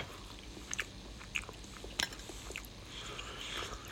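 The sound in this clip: Chewing and biting into canned meat cubes: a few faint, soft, crunchy bites over a quiet background.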